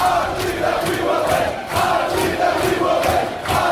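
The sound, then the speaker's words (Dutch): American Outlaws supporters chant at a US soccer match. A big crowd shouts a chant in a regular, pulsing rhythm, each loud burst following the last at a steady pace. “Maar ze hebben eigenlijk meer yells en chants. Daar moeten ze het van hebben. Gelukkig hebben de American Outlaws, dat is een hele fanatieke supportersgroep, die hebben er een heleboel online gezet.”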